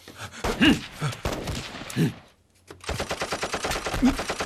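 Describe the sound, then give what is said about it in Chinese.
Gunfire crackles outside in rapid, loud bursts of automatic shots. A brief lull is followed by a long, evenly spaced stream of sharp shots. “你听到外面的枪声没有啊？”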